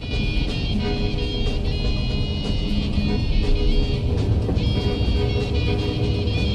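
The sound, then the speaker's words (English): A car drives down a narrow country lane overshadowed by trees, its engine and road noise forming a steady, continuous drone without pauses or sharp changes. “He drives down a narrow country lane overshadowed by trees.”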